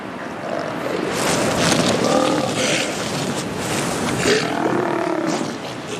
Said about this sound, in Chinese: 一头地位较低的雄性象海豹靠近了毫无防备的雌性，